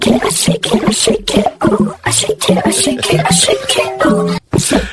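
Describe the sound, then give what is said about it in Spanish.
A kitchen sink drain makes a strange, loud gurgling noise. Many choppy bursts carry warbling, voice-like tones that rise and fall, with short gaps between them. “Este es el fregadero.”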